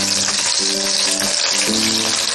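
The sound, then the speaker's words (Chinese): Scallion, garlic and chili bean paste stir-fry in hot oil with a loud, continuous sizzle. The crackling hiss holds steady throughout with no break. “我们倒入适量的油，放入适量的葱蒜，炒香，再放入豆瓣酱，继续翻炒”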